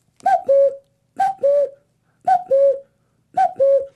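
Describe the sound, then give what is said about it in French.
A cuckoo calling in spring: four evenly spaced two-note calls, each a higher note dropping to a lower one, clear and fairly loud against near silence. “Ah ah, c'est le printemps qui revient, c'est le chant du coucou.”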